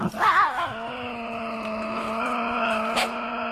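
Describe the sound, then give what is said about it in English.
Tasmanian devil growling: a sustained, tonal growl that wavers in pitch at the start, then holds a steady, droning whine with a brief sharp spike near the end. “You know, that is the sound of the Tassie Devil.”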